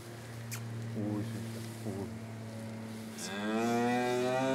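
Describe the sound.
Cattle mooing, a mother cow with her calf in a herd. A long, loud, rising moo comes near the end, with fainter calls earlier, all over a steady low hum.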